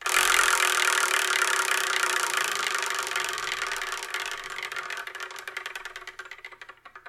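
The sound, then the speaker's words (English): A prize wheel is spun to pick a numbered manga title for review, giving a steady whirring rattle of rapid clicks that slow and spread apart toward the end as it winds down. “Whatever number it lands on, the manga that's on that number is the one I review in the next episode of the Spark and Manga Review, episode 424. And I'm excited because we've got some great titles on here and some old school titles. So let us spin and see what we're going to review,”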